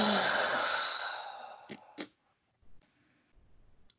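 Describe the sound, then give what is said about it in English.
A loud, breathy exhale with a sputtering, farty quality fades over about a second and a half. A few short clicks and low, muffled bursts follow. “I made a farty noise and then I realized I made a farty noise when I made my exhale”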